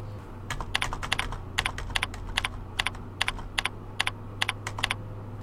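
Keys are pressed on a computer keyboard, as when hitting backspace to delete steps in a word processor, giving many crisp, evenly spaced clicks over a low steady hum, with no voices.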